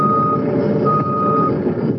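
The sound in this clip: Truck reversing beeps at a gun range used as a hazardous waste site for fire debris: steady, high-pitched beep tones that repeat over a continuous low engine rumble.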